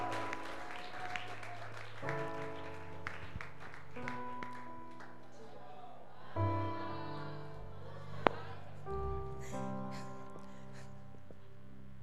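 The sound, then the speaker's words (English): A church audience gives soft, continuous applause to welcome a man onto the stage to share his testimony, the clapping faint and steady beneath sustained keyboard-like musical tones. “let's put our hands together and welcome Eugene to share his testimony. Church, you can do it better for him as he comes on stage.”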